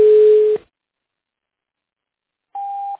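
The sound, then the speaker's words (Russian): Telephone ringback tone while a call is connecting: one steady low beep lasting about half a second, then a long silence, then a shorter, higher-pitched beep. “Продолжается попытка дозвониться до абонента”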